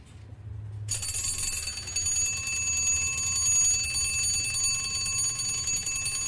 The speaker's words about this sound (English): This is an early alarm mechanism. And it can be set by a disc at the front of the dial behind the hands. And this is the sort of tone that you get from that.